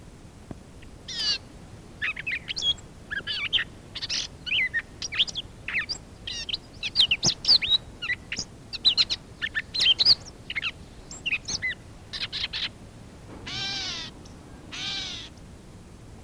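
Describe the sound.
Bird calls: many short, sharp chirps in rapid, irregular bursts, followed by two longer, rounder hooting calls near the end, with no talking.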